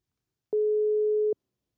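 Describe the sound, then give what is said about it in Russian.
An outgoing phone call rings while waiting for an answer: a single steady electronic ringback tone, low-pitched and lasting just under a second, with silence before and after. “Ну что, я набираю, да? Да-да. Так, вызов пошел. Ждем ответа нашего спикера.”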